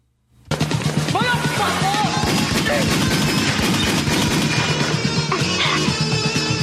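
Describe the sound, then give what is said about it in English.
Sustained gunfire fills a warehouse shootout between armed military men, a dense, loud barrage of rapid shots that starts abruptly after a brief silence and continues without letup. “The two armed military men are entering the warehouse and Sydney fires at them.”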